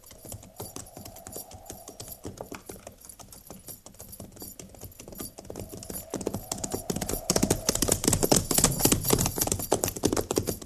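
Horses' hooves clip-clop steadily as a mounted army company rides along, many quick, overlapping beats that grow louder and denser toward the end.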